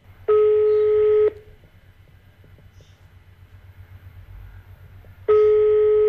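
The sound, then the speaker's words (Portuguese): Telephone line tones sound as a call is placed to a radio station. Two long, steady electronic beeps of about a second each are separated by a long, quiet pause. “eu vou ligar aqui para uma rádio bastante conhecida”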